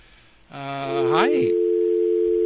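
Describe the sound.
A steady telephone line tone from a call that fails to connect holds one unbroken pitch for about two seconds, following a brief gliding harmonic sound at the start.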